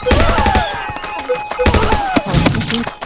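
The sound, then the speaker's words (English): Rapid machine gun fire in a video game, arriving as loud bursts of clattering shots mixed with other electronic game effects and tones. “There's my machine gun.”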